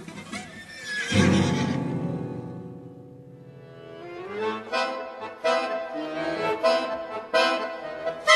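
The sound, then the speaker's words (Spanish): A riderless, blood-soaked horse neighs in a loud, long whinny, followed by further shorter whinnying calls, with no voices. “El caballo que huye solo, sin jinete, relinchando, mojado de sangre”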